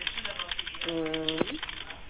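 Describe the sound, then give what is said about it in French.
A phone keypad key pressed by accident sounds over a phone line as one short, steady electronic beep, about half a second long, among faint clicks and a voice talking. “il faudrait bloquer votre quoi clavier, madame, parce que là, vous appuyez sur des touches par inadvertance. Est-ce que vous pouvez bloquer votre clavier, s'il vous plaît?”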